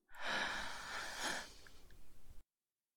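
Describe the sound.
A single long, deep inhale during a guided relaxation exercise: a breathy, airy rush that holds steady for about two seconds and then tapers away, with no talk over it.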